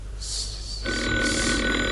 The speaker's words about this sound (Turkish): Lütfen telefona cevap verin